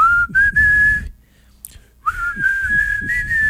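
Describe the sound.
A person whistles a song's melody in clear, steady, fairly high notes. There are two whistled phrases with a short near-silent pause between them, and a faint low rumble lies underneath.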